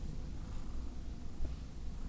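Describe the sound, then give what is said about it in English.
A cat purrs while sitting on a person's lap, producing a steady, soft, low rumble that continues throughout with little variation and a slight swell near the middle. “Moody's sitting on my lap, and you can hear her purr. You can hear her purring, you can hear her movements.”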